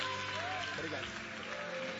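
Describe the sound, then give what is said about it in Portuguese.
A church audience claps its hands in celebration as it welcomes the pastor, making a continuous, even patter of clapping beneath a voice that carries on over it. “e a igreja celebra a Deus com palmas bem alegres enquanto nós recebemos o nosso pastor. Isso, celebra a Deus com palmas.”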